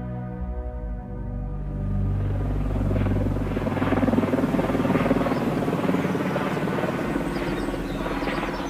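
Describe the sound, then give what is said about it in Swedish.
A helicopter circles over a mansion in Mendham, New Jersey, its rotor and engine producing a loud, steady, buzzing drone that holds throughout and swells slightly midway, with no voices. “En helikopter cirkulerar över Whitney Houstons mansion i Mendham i New Jersey.”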